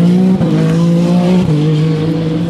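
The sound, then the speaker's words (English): A Ferrari race car's engine roars during a motor race as racing resumes after a slow zone: a loud, steady, high droning note with two brief dips in level, no talk over it. “There's my Ferrari,”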